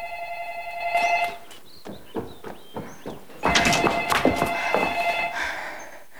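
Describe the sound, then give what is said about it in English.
A telephone bell rings in a short burst, then in a longer, louder burst, with a few dull knocking thuds like footsteps between the rings. “Did you just dial? How long have you been ringing?”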